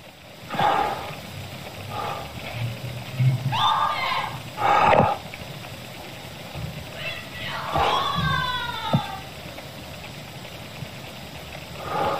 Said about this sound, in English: We're going to listen to this audio again of the scream. He decided to record a bit of it. So let's just play this again.